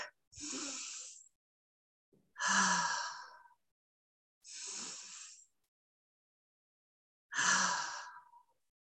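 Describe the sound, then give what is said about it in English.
A group of women in a ritual circle takes deep breaths together: four long, breathy whooshes of air drawn in and let out, separated by short silences, with no talking. “Let's do a couple of deep breaths.”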